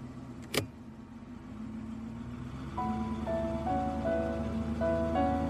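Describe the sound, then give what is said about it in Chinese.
A car engine hums and pulls away with a low, steady rumble that grows slightly louder. A sharp click sounds near the start, and faint sustained tones come in partway through. “开车。”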